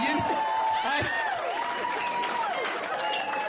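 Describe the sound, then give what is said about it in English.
Cheering and applause from a stand-up comedy audience, a steady, even wash of clapping and crowd noise that carries on beneath a performer speaking throughout. “They should be paying me money for that response. I don't know that anyone's ever cheered for Scuttlebutt”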